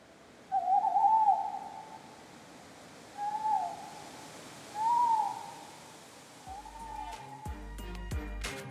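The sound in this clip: A barred owl hoots in low, breathy calls. Four hoot phrases are spaced apart over a steady background hiss, and a few knocks and clicks come near the end.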